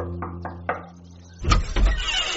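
Knocking on a door: a few faint taps over a low hum, followed by two louder, sharper knocks.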